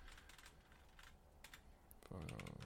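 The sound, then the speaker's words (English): Faint typing on a keyboard while searching for plant identifiers: a quiet run of irregular light taps, then a louder, denser burst of clatter near the end. “It's really hard to type.”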